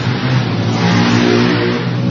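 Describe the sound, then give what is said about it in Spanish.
Motorcycles passing by on their way from a racetrack, making a loud, continuous engine roar with a revving, growling tone that holds steady throughout. “Están pasando algunos ciudadanos con sus motos. Desde el autódromo.”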